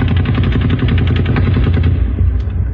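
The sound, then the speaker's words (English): An M60 machine gun fires a loud, continuous stream of rapid shots during a shooting involving several weapons, with too many bangs to count in a fast, steady rhythm. “Something's going on. That's an M60.”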